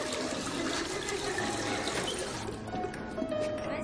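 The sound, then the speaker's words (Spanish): Water gushes from a drinking fountain into a thermos being filled: a steady, loud, hissing rush of liquid that continues throughout with little change in level. “Llena un termo con agua.”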